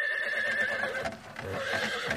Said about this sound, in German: Nach mehrstündiger Fahrt mit der königlichen Kutsche erreichten sie ihr Ziel am nächsten Abend.